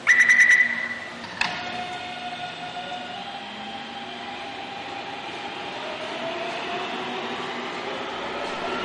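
A train whistle gives a short, loud blast, then a single clunk sounds. A steady, low rolling rumble of the passing train follows and lasts to the end.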